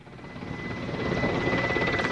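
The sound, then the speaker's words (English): A helicopter lands at a military base held by interim government forces near the front line west of Sirte, Libya, its steady rotor thrum and engine whine growing gradually louder. “A helicopter landing at a base held by forces of the interim government, not far from the front line on the western side of Sirte.”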